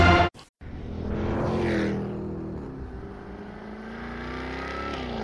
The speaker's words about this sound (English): What feeling do you get when you drive the 575-horsepower supercharged V8 Jaguar F-Type R?